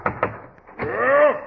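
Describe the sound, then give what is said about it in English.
Two quick, sharp knocks rap on a dressing room door backstage at a show, close together at the very start, followed after a short pause by a brief voice. “He's in here. Yes, I'll knock.”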